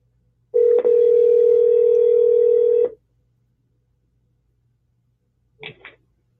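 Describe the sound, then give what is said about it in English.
A steady telephone dial tone holds for about two and a half seconds after a wrong number was dialed on the keypad, then, after a pause, a brief keypad tone sounds. No voices. “I dialed the wrong one on the pad here.”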